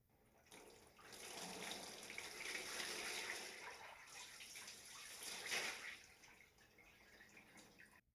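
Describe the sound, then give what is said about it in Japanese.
Hot water poured over a person's body before a bath, a steady splashing gush that swells, surges again near the end, and then tapers off. “しっかりかけ湯をしますね。”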